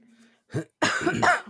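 Coughing from seltzer gone down the wrong pipe: a brief first cough, then a longer, harsh, throaty cough that sounds like throat clearing.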